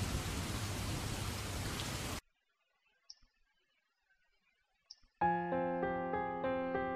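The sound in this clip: Steady, dense rain hisses for about two seconds, then cuts off abruptly to near silence broken by a couple of faint clicks, before tonal music begins.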